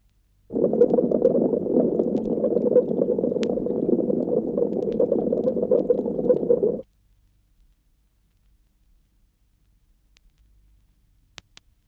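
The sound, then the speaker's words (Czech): A pipe leak bubbles, picked up by a ground microphone with its low tones emphasised: a continuous low, rumbling gurgle lasts about six seconds, then cuts to near silence with a few faint ticks. “Bublání je dobře slyšitelné. A nyní při zdůraznění kmitočtu 100 Hz.”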